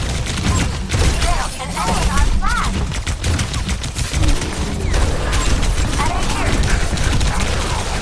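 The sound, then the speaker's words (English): Rapid gunfire from a video game, with guns fired nonstop. Dense, overlapping bursts of loud sharp shots come one after another with almost no pause, and a voice is mixed in now and then. “Literally just spamming guns.”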